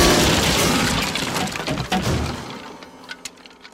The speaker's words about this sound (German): Ja, der Flügel ist kaputt.